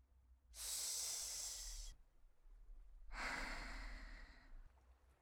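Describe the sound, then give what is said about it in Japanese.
Two slow, gentle breaths during a guided breathing exercise, each a soft, airy hiss lasting over a second, separated by a quiet pause. “優しく吸って、吐いて、繰り返して。”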